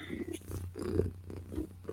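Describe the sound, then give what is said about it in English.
A human voice imitates a cat's purr: a low rumbling drone broken into rhythmic pulsing bursts, fairly quiet, with no other talk. “I'm happy when I'm purring.”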